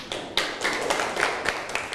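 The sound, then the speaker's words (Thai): Students clapping for their classmates in class, a fairly faint patter of scattered, irregular claps from a small group rather than a full, dense ovation. “นั่งลงครับปรบมือให้เพื่อนหน่อย”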